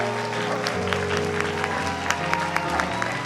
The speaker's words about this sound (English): So I now present to you new couples in this audience. Give them a great big hand.